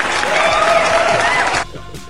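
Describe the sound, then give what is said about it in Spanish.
An applause sound effect of a crowd clapping, dense and steady for about one and a half seconds before it cuts off and leaves a quieter tail. “Yo ya sé poner aplausos.”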